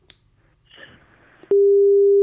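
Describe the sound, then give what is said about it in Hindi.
A telephone busy tone sounds after the caller's line is cut. A few faint clicks and rustles come first, then a loud, steady mid-pitched tone starts abruptly and holds to the end. “लीजिए इन्होंने भी जो phone है काट दिया। बहुत देर try किया इन्होंने, लेकिन शायद सिग्नल इनका जो है वो ठीक से काम नहीं कर रहा है”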